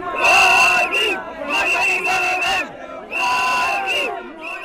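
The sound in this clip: A large street crowd shouts and cheers for a returning former leader, three loud bursts of chanted shouting in unison separated by brief pauses.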